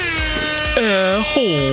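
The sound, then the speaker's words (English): An air horn sound effect sounds in loud, sustained harmonic blasts whose pitch wavers and bends. Softer lead-in tones come before two prominent honks. “Air horn.”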